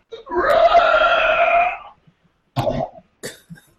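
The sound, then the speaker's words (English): A player in a role-playing game voices a strangled, choking scream as the character is throttled. A strained, drawn-out wail lasts about a second and a half, followed by two short, rasping gurgles. “you can try to get a scream out”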